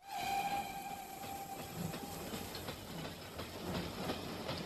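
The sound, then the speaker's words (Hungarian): A train rushes out of a railway station at the start of a journey, with a loud, steady rumble and rattle of wagons throughout and a high sustained whistle-like tone near the start that fades away. “Amikor a vonat kirobogott”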